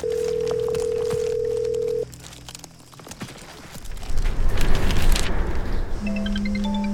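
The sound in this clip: A telephone rings out on a call while someone waits for an answer: one steady ringback tone holds for about two seconds and then cuts off, followed by rough, noisy rumbling and a lower tone near the end.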